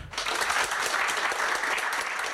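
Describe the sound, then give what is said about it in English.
Audience applause for a guest speaker after a talk: dense, steady clapping from many hands, loud and unbroken for the whole clip with no voices over it. “Right, so if you could give a round of applause for Tom.”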